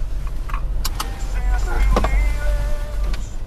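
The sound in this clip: A car rumbles low and steadily as it is driven, with scattered clicks, small rattles and a brief whir heard over the engine and road noise.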